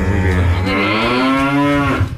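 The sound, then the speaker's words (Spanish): A cow moos loudly in one long, sustained call of about two seconds, deep and strongly voiced, fading out at the end. “Nos vamos por la vaca, de parte de Kenia Victoria. ¡Eso! Gracias. ¿Qué dijo la vaca?”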